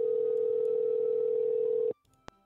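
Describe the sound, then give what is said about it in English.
A phone's ringing tone plays in a video game as a call is placed, a single steady mid-pitched tone held for about two seconds. It ends abruptly with a sharp click. “I got Donald Trump's phone number, you guys. Fuck yes. Oh my god, I hope he answers.”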